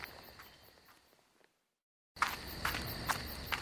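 Footsteps of someone walking away with long strides toward a refectory, a steady, faint series of steps that fades out into a brief silence, followed by loud, steady insect chirring.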